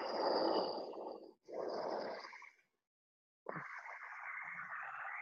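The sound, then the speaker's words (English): Ujjayi breathing during a yoga session: two hissing, throat-constricted breaths in quick succession, a short silence, then another long, airy breath. “Develop your ujjayi breath.”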